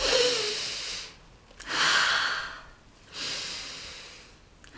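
Three deep breaths, taken by someone feeling congested, come as loud, airy rushes with a snuffly, nasal edge, separated by short quiet gaps; the last breath is softer and longer.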